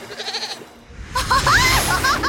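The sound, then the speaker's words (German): Goat bleating after falling onto a car roof in an animated children's story: a short, loud, wavering bleat in the second half, preceded by a brief swell of noise. “doch seine Ziege stürzte in die Tiefe und landete genau auf dem Dach des Autos.”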